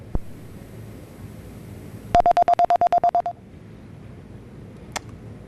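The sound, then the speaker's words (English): Telephone keypad dialing tones as a call is placed to a guest: a rapid, even run of about a dozen short, loud beeps over low background noise, with a single faint click before and after. “Okay, so we're trying to get Chuck on the phone.”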